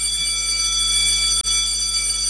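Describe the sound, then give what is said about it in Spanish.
An electric school bell, a buzzer rather than a struck bell, rings loudly and continuously with a steady, harsh, tonal buzz that cuts out for an instant partway through before resuming. “Eso no es una campana, un timbre, perdóname. Pero bueno, dale, ponelo. Me hace acordar mi escuela.”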